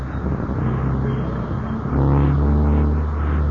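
A car drives past under a steady low engine rumble, which swells louder about halfway through and stays heavy to the end.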